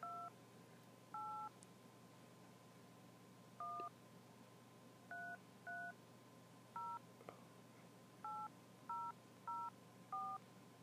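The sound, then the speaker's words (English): Telephone keypad tones as a number is dialed: ten short, clear beeps at uneven intervals over a faint steady tone, with no voices. “So, we go call Mike Jones real quick.”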